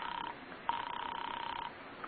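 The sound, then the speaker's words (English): A telephone rings as a call is placed to an apartment: a thin, band-limited trilling buzz, with a short clipped burst first and then one longer steady ring, heard alone. “You call Ferguson's office. There's no answer. Then you ring his apartment.”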